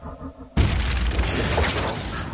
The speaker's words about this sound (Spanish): El destrozado Chevrolet se eleva varios metros sobre el mar y explota en el aire.